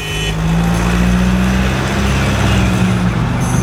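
Car engine roaring as the driver accelerates hard to beat a yellow traffic light. A loud, steady, low drone holds for the whole clip, with no voices.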